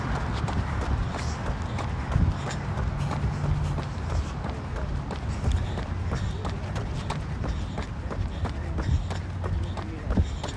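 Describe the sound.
Running footsteps during a workout stride: many quick, evenly spaced footfalls in a steady, driving rhythm that continues throughout.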